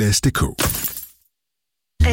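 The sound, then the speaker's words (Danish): A stone chip strikes a car windscreen with a sharp, brief glassy crack, followed by a short burst of voice, then silence before talking resumes. “Et steneslag!”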